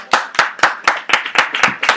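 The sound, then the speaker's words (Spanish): Audience applause for a quiz participant at a film-themed talk event: about nine sharp, evenly spaced claps in a brisk steady rhythm, loud and crisp with no talking over them. “Le damos chance al joven porque no ha respondido nada. ¡Un aplauso!”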